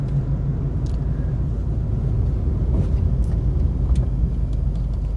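A car drives along a road on the way to work, heard as a steady, loud low rumble of road and engine noise at a constant level, with no voices.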